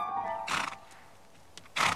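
Young, unshod, high-spirited horses neighing in fenced meadows: a few short, faint whinnying bursts over a steady background hiss, with the last burst the strongest.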